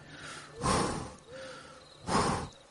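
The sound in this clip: A voice imitates something breathing very heavily behind a quillay tree and bramble thicket: two loud, rough, drawn-out breaths separated by a quieter pause, with no other sound.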